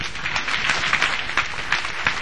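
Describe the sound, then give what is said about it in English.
A church audience claps for Jesus, many hands beating together in a dense, steady patter that holds evenly throughout. “Clap for Jesus.”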